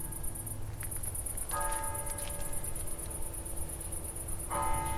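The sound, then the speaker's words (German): Crickets chirping in a garden at night: a continuous high, rapidly pulsing trill, fairly faint, over a steady low background hum with no voices. “Man denkt ja im ersten Moment, es ist ruhig, aber man hört ja Geräusche, die von weiter weg sind, viel lauter. Man hört auch Grillen intensiver.”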